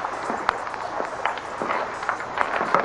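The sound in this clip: Footsteps walking along a narrow seawall: many irregular, crisp steps over a constant background hiss.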